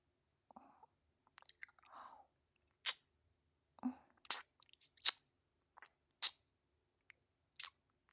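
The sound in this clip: Wet licking and smacking mouth sounds: a series of short, moist clicks and slurps spaced irregularly, with occasional sharper smacks and no talking.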